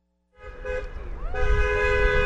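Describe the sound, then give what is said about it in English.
Car horns honk in support of protesters on a street corner in Menominee, on the Michigan-Wisconsin border, on a Friday evening. A bright, sustained horn blast starts, shifts tone midway and continues louder to the end. “On this Friday evening, cars honk in support of protesters who stand on a street corner in Menominee, just across the border from Marinette.”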